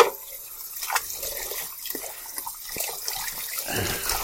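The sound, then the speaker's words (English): Tap water runs into a sink while hands and a saucepan are washed during bread making. It makes a steady, fairly quiet trickling and splashing with small irregular spatters, and there is no talk over it. “I'm just going to let it sit there for a minute or two while I wash off my hands and wash out.”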